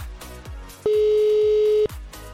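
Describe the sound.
A steady electronic telephone ringback tone sounds once for about a second while the call waits to be picked up, over rhythmic music with regular beats.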